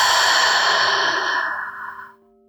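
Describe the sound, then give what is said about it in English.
A long, deep exhale through the mouth during a mindfulness breathing exercise. The breathy rush of air holds steady, then tapers off into silence after about two seconds. “Deeply inhale through the nose. Exhale through the mouth.”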